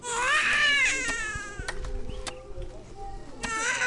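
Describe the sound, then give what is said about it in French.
An infant cries in high, wavering wails that are loudest at the start, then fades into softer, broken whimpers and fuss. “Oh mon petit, tu pleures. Qu'est-ce qui ne va pas? Tu dois avoir faim.”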